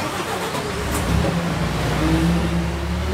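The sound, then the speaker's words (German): A truck-mounted aerial work platform's engine runs in a steady, low droning hum with a faint rumble that holds fairly even throughout, with no talk over it. “Und dann geht's los. Im Korb der Hebebühne fahren sie über den Abgrund.”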